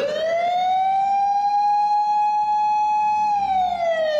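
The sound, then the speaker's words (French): A siren wails in the distance near a Tokyo subway station during the 1995 sarin gas attack: one loud, steady high tone that creeps upward, holds level, then dips near the end, with no talk. “Les sirènes retentissent au loin, mais aucune ne se dirige vers eux.”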